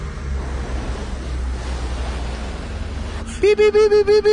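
A person blowing into a breathalyzer during a traffic stop, a long rushing breath noise followed by five quick, evenly spaced electronic beeps from the device.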